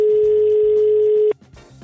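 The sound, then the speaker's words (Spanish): A telephone dial tone rings out as a steady, loud, unbroken hum for about a second and a quarter, then cuts off abruptly, leaving a few faint clicks and rustles. “Te voy a marcar el teléfono.”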